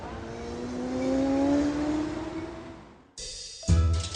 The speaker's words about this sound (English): Feeling better after a good night's kip, I'm taking a taxi to a Paris suburb.